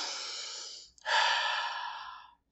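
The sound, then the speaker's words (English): Deep, calming breaths: a long, airy breath tapers off, then after a short catch a second full breath rises strongly and trails away, breathy and broad, with no voices. “The first step is to chill out. Take three deep breaths.”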